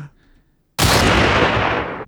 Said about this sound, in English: 44 Magnum, single shot.